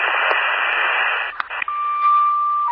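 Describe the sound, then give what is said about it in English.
Radio static fills an emergency dispatch channel as an unreadable transmission: a steady, band-limited hiss broken by brief clicks, followed by a sustained electronic tone. “You are all static, unreadable.”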